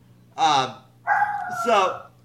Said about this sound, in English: It's a dog.